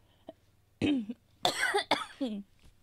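Coughing and throat clearing into a microphone: a few harsh, rough bursts separated by short pauses, loud against a quiet background.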